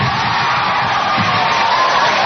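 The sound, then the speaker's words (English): A crowd in Vancouver erupts into loud, continuous cheering as the city is announced host of the 2010 Winter Olympics. It is a dense roar of shouts and whoops with no break. “A crowd in Vancouver watching the announcement via satellite burst into loud cheers”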